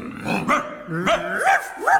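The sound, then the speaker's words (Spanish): A dog barks a few times in short, sharp, bright yelps spaced about half a second apart, loud and clear with nothing else behind them. “Los perros ladran.”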